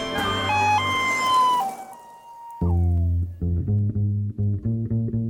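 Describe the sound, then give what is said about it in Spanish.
An ambulance siren, from a heart-shaped ambulance, rings out loudly as a steady tonal wail that cuts in partway through and then pulses in short repeated bursts, with no talking. “Y así, en una ambulancia con forma de corazón, para los que no pagaron su cobertura carísima, llega Inés Tornavene”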